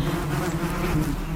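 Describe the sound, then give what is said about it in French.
Steady buzzing of an Asian hornet, the invasive Vespa velutina, moving among honeybees at a hive. It is a continuous low, even drone that holds for the whole short stretch, with no voices. “c'est le son du frelon asiatique au milieu des abeilles.”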